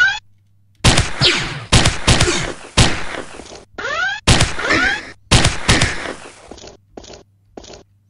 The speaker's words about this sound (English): We're gonna use the revolver.